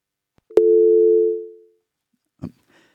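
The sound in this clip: A telephone line tone from an incoming call that fails to connect: one steady, even tone lasting about a second that cuts off, followed by a short click and then quiet.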